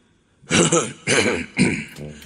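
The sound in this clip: Loud throat clearing comes in three harsh, rasping bursts, each about half a second long, after a moment of near silence.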